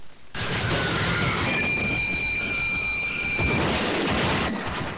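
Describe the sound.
A train sound effect fired by an off-the-rails button: a loud, sustained rolling roar with high, steady screeching squeals through the middle. It runs several seconds without pause, then cuts off.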